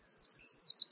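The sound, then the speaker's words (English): A northern yellow warbler sings a quick phrase of six high, sweet chirps. Each note slides briefly downward, and the notes repeat in an even, rapid rhythm. “For example, if it's your first time hearing a northern yellow warbler sing,”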